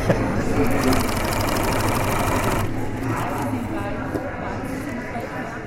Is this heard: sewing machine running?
yes